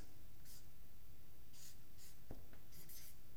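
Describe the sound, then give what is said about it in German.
Writing on a board: a few short, scratchy strokes come in separate bursts over a steady background hiss. “Ich schreibe das hier oben an.”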